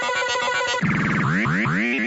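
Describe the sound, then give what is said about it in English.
A pinball machine's multi-ball sound plays as loud electronic tones. A rapid, buzzy chiming pattern gives way to a series of repeated, bright rising synthetic swoops. “When that came out in pinball machines, and it wasn't just one ball getting flipped around all over the place and a couple of targets going down, that's the multi-ball sound.”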